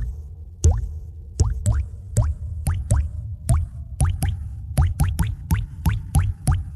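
Water dripping from a plumbing leak: many distinct plops, each with a quick upward-sweeping pitch, falling in an irregular rhythm, clear and alone with no voices.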